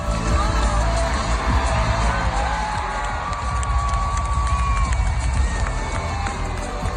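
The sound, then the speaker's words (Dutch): A crowd in a festival tent cheers for a worker who put out a small fire in a stage effects machine with an extinguisher. A loud, sustained roar of voices carries a few high whistles and whoops. “Ja, dat applaus is voor de medewerker die met een brandblusser het vuurtje bluste op het podium.”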